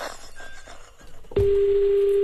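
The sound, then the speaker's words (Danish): A phone ringing tone on a call to Thailand sounds as one steady, unbroken single-pitch tone that starts abruptly partway through after a quieter stretch of faint background sound, then holds loud to the end. “Det er meget trist ringetone, de har i Thailand. Tag den nu, mand.”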